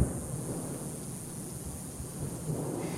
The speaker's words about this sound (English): walls of dust, cracks of lightning,